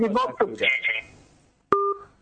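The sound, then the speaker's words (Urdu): A single touch-tone telephone key beep, a steady two-note tone, follows a voice speaking while an outside call is being dialed. “میں نے ایک کال ملا لی ہے باہر کی، میں ان کی بات سن رہا ہوں.”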